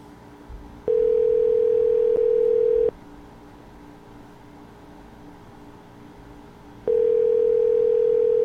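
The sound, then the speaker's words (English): A telephone ringback tone plays on a call that goes unanswered, as two long, steady, mid-pitched tones separated by several seconds of quiet line hiss, the second tone cut off at the end. “Is it dialing? Is it not dialing? Is it dialing? Is it not dialing?”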